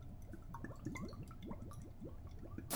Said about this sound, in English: I'm going to put a bit of lemon pepper on, a bit of salt on, some black pepper, the olive oil, quick drizzle